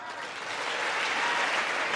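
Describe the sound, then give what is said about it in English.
Audience applause on a legislative floor, a dense, steady wash of clapping from many hands that holds at an even level throughout, with voices mixed into the crowd. “Our common cause. You want to applaud for Ronald Reagan?”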